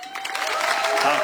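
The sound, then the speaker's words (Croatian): A festival audience starts applauding a debut songwriter: a brief burst of clapping and crowd noise that swells quickly, with a steady tone running beneath it. “pa ćete mu pljeskat, kako smo se navadili na početke da čovjek misli da je prišao Mišo Kovač, idemo proba, Mišo Kovač, sad!”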